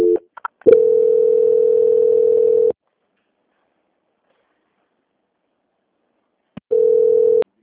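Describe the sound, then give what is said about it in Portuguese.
Steady telephone line tone on a call being transferred, a few short clicks at the start, then two long unbroken stretches of the same flat tone separated by silence. “Só aguardar em linha que eu estou transferindo aqui. Tá bom. Transferência.”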